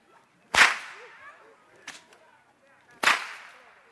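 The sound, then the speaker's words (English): Long whip cracked outdoors: two loud, sharp cracks about two and a half seconds apart, with a smaller snap between them, each followed by a brief fading tail. “Now, this is a longer whip. Maybe I better get outside here with this.”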